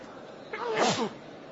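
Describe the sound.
A single sneeze during a lesson on Quranic exegesis: one brief, sharp burst that rises quickly and fades within half a second, heard alone over a quiet background.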